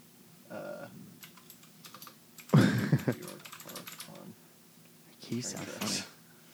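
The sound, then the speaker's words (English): Clicks from typing on a phone or computer keyboard come in a few quick, light bursts while people talk over them. “I'm just going to have to look it up. Look it up. Get that clickety clack.”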